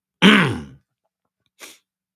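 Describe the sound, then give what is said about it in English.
Someone clears their throat: one rough, fairly loud burst, a short silence, then a brief second rasp. “sorry about that. I had to clear my throat.”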